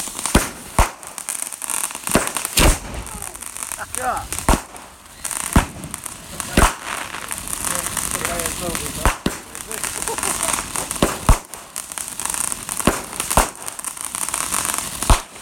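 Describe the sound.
Lit fireworks pop repeatedly, many sharp loud bangs spread irregularly over a steady crackling, fizzing background, with people talking throughout.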